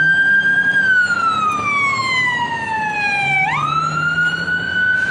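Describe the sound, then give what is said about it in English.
Ambulance siren passing, one long loud wail whose pitch slides slowly downward for several seconds, then sweeps quickly back up and holds, over a low vehicle rumble. “Here comes an ambulance, hold on.”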